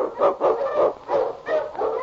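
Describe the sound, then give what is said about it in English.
Barking of an Eskimo husky lead dog, a quick run of several short, yelping mid-pitched barks in a fairly even rhythm, loud and alone. “The underdog king, swiftest and strongest of Eskimo lead dogs, blazes the trail through storm and snow for Sergeant Preston”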